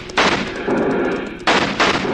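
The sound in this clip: Gunshots in a radio western drama: a few sharp, loud shots cracking over a dense rumbling background, with no talk.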